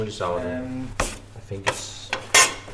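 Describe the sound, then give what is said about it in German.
A baker kneads about four kilos of pure sourdough by hand beside wood-fired ovens. A few dull thumps and soft rubbing sounds are heard, and a voice talks briefly at the start. “Noch in der Nacht hat er den Teig angesetzt. Jetzt knetet er ihn vorsichtig.”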